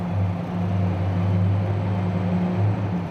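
Low, steady engine drone of an emptied ore vehicle driving back into an iron mine, a deep continuous rumble with a humming undertone and no pauses.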